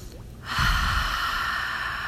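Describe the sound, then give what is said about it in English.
A deep, slow breath: after a brief quiet moment, a long, steady, airy rush of breath swells in and holds evenly to the end, with no talking. “Taking that deep and slow breath.”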